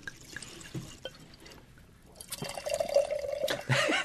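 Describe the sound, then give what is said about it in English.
Wine poured into a mason jar: a soft liquid trickle and splash with a steady ringing tone, fairly faint, following a near-silent stretch. “That's the sound of a mason jar.”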